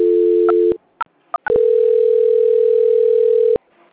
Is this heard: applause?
no

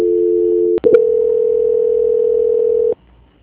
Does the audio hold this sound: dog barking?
no

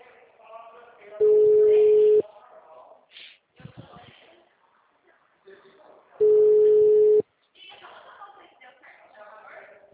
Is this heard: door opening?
no

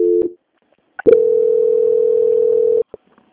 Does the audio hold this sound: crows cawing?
no

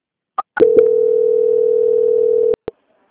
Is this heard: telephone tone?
yes

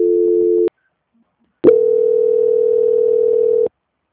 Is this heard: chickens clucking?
no

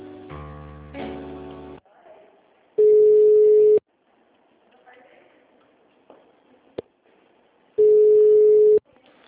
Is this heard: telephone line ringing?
yes

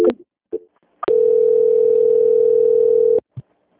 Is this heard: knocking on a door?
no

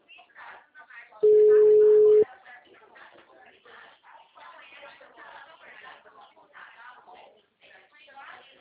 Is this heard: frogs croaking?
no

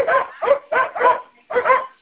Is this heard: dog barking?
yes

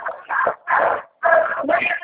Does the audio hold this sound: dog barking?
yes

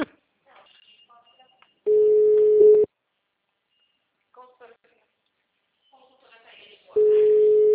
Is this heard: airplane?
no

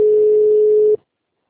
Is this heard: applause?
no

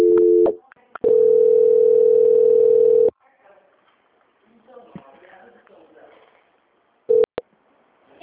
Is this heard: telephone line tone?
yes

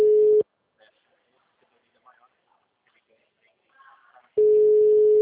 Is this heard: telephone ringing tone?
yes

